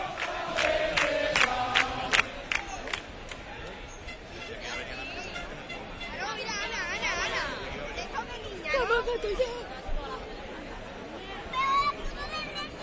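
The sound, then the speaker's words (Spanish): Crowd chatter at a packed public gathering that has just begun: a dense, continuous babble of many overlapping voices, with occasional louder calls rising out of the steady murmur throughout. “escuchamos, que es lo importante, el calor del público.”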